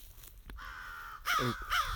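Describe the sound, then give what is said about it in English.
A family group of eight American crows caws on a Florida prairie preserve, giving a few loud, harsh calls over a faint background hiss. “group of six American crows at Kissimmee Prairie Preserve State Park”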